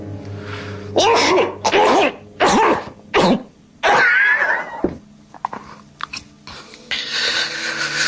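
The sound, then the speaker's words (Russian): A man coughs after choking on a crumb: five loud, harsh, spluttering coughs come in quick succession, followed by quieter sputters and breaths. “Все в порядке, крошкой поперхнулся.”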